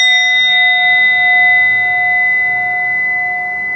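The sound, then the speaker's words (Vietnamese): A drum with a metal face instead of a cowhide head rings like a struck bell. A few steady, clear tones hold throughout and sink slightly in level toward the end. “cái trống ở đây không mặt bằng da bò như của mình bình thường, mà cái mặt trống này bằng kim loại. Do đó khi phát ra thì quý vị thấy tưởng tượng như cái tiếng chuông của mình”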